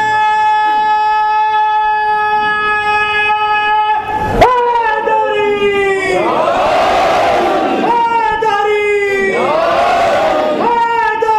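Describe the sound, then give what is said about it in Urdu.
A crowd chants the Shia slogan Naara-e-Haidari in two loud, swelling roars, following a long, steady droning tone that holds through most of the stretch. “مومن و منافق کی پہچان کے لیے ہم دیکھنا چاہتے ہیں نعرہ حیدری لگا کے دیکھ لیتے ہیں”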